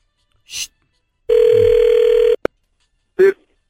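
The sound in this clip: Ringback tone of an outgoing phone call being placed: one steady, buzzing ring lasting about a second, set between brief short sounds before and after it.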